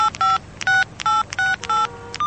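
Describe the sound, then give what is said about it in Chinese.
A telephone number being dialed on a keypad: a quick run of about six crisp two-tone beeps with short gaps between them, clear and steady with no voices. “高淳拨了陆子强的电话号码。”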